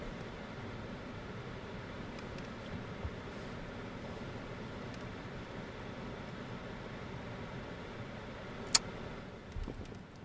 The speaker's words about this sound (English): If you're quiet, you can hear the water fall outside. So here's 5 seconds of quiet.